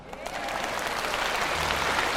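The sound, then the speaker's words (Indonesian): Audience applause at a talk for company employees: clapping swells quickly in the first moments, then settles into a steady, dense patter of many hands that continues evenly to the end. “Mana tepuk tangan?”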